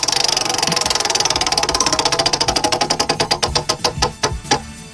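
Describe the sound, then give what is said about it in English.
A prize wheel is spun, its pointer ticking against the pegs in a rapid, even stream of clicks that gradually slows and spreads out toward the end, heard alone and fairly loud. “All right, I'm going to spin the wheel. Here we go.”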